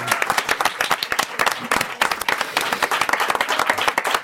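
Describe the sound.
Audience applause for a singer on a French television show, dense and steady clapping that holds at an even level for about four seconds.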